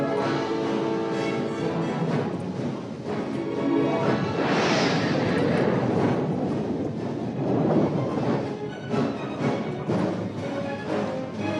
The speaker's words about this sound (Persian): آتش. اژدر یک همین الان شلیک شد.